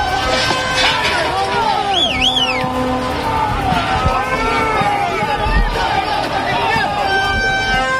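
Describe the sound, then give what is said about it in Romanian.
Steady roar of a crowd during violent protest clashes near the Romanian government building, Victoria Palace, with dense babble and traffic-like rumble throughout, crossed by a few short, wavering whistle-like tones. “Este haos în apropierea guvernului, au încercat protestatarii să se apropie de clădirea executivului de Palatul Victoria. Sunt violențe în momentul de față”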